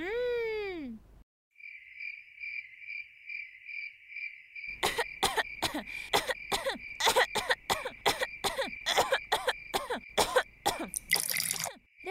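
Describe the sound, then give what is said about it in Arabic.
A woman with a sudden cough and high fever coughs in many harsh, irregular bursts and clears her throat, under a steady high-pitched insect-like trill. “اشربي الماء. لماذا بدأ السعال فجأة هكذا؟”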